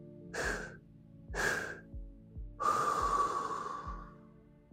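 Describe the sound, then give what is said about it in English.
Breaths during a stress-relief breathing exercise: two short, sharp breaths, then a long, drawn-out exhale that slowly fades over a steady low background hum. “And hold. Exhale.”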